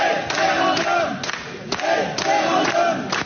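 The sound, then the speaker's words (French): About 350 residents of Rantigny gathered in a municipal hall chant a rhythmic one-word slogan demanding a referendum from data center developers, loud repeated bursts of massed voices roughly every half second. “Dans cette vidéo enregistrée dans une salle municipale le 19 août dernier, vous entendez 350 habitants de Rantigny dans l'Oise crier référendum face aux promoteurs”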